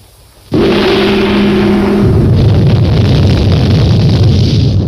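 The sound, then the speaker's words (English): After a moment of quiet, a sudden burst erupts as a witch doctor throws something down, raising a plume of fire and smoke. A loud, rushing roar then holds steady while a low hum underneath fades partway through. “A witch doctor character has just thrown something on the ground and a big huge fire plume of smoke has appeared.”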